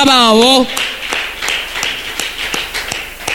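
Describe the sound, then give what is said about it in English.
Congregation clapping for the Lamb of God during a sermon: a voice speaks briefly, then steady, evenly spaced claps repeat about eight times in a firm rhythm. “Why don't you clap for the Lamb of”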